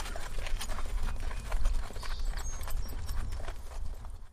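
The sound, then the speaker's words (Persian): Horse hooves pound out a fast, steady gallop, a loud continuous drumming rhythm with no voices, as a rider makes a long journey on horseback. “شاپور 14 روز اسب تاخت تا به تیسفون و قصر شیرین”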